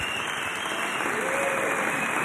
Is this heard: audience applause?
yes